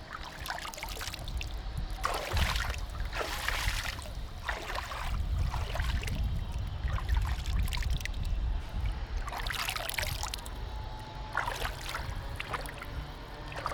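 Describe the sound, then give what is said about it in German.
Water of the Danube river splashes as a hand dips in at the bank. Soft, irregular splashing bursts over a steady watery hiss stay fairly faint, with no voices. “Ach komm, mal in die Donau reingreifen, so plätschern. Also wir sind jetzt hier direkt an der Donau. Die Wassergeräusche sind das Schönste fast.”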